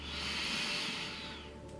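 A single long, deep inhalation taken during a guided yoga breathing exercise, a steady airy hiss that stays loud throughout and tapers off slightly at the end.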